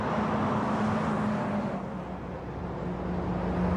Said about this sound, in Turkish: Farları açık ileriden gelerek görüntünün önünden geçip gittiler. Araba Yavuz'un.